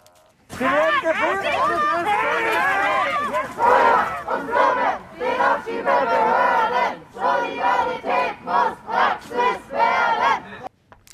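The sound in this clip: A protest crowd chants loudly against the deportation of two sisters to Georgia. Massed voices shout in unison, settling into a steady rhythm of short, regular bursts of chanting toward the end.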